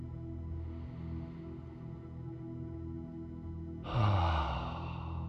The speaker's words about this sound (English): So please take a deep breath.